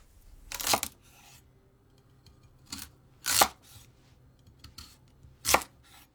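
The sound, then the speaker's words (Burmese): Knife slicing daikon radish into 2 cm rings: a few sharp, crisp cutting strikes spaced well apart, with fainter small knocks between them and no talking. “ပထမဆုံးမုံလာဥကို2 cm အထူးအကွင်းလိုက်လှီးပါ”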